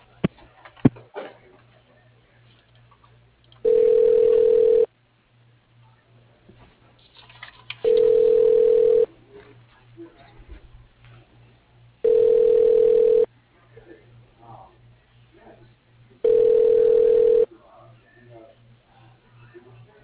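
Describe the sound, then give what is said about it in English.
Steady tone bursts sound on a business telephone line while a call is transferred to voicemail through a winery's phone menu. Four evenly spaced beeps, each about a second long, alternate with quiet gaps that carry a low, steady hum. “Please hold while I transfer your call to Rebecca Laird.”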